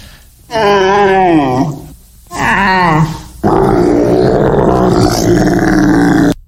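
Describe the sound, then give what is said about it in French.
A person imitates a camel's groaning cry in three long, loud, guttural bursts. The first two waver and slide downward in pitch, and the third is longer and rougher. “Son cri, il blatère. Ah, un chameau. Oui, bonne réponse.”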